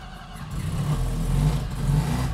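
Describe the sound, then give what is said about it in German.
An NSU Ro80 car engine firing up after the ignition key is turned, following about half a year standing unused: a steady low mechanical rumble that holds and swells slightly in level, with no voices. “Und jetzt Zündschlüssel rum? Wird eine Weile dauern, bis der anspringt, weil er erst den Sprit alles klar hintransportieren muss.”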